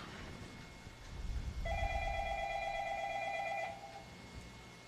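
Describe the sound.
A telephone rings with an incoming call: one sustained electronic ring of steady, bright tones lasting about two seconds, fairly faint over a low background rumble.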